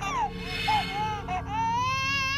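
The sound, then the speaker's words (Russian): An infant cries desperately far away on the other side of a ship, behind many doors, in high, wavering wails that rise, break and resume. “Плакал ребенок. Где-то далеко, на другом конце корабля, за многими дверями отчаянно плакал,”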